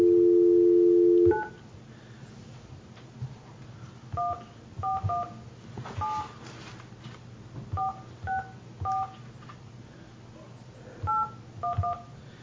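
A telephone dials a number: a steady tone cuts off, followed by a series of short touch-tone beeps in irregular clusters over a low background hum.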